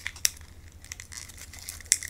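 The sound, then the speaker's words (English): Petals torn off a flower and tossed into a potion in an ASMR witch sleep-potion roleplay: soft, close crinkling and tearing rustles, broken by two sharper, crisp snaps amid quieter rustling. “Rip a piece off and throw it in. And I'm just gonna rip the petal off, throw it in”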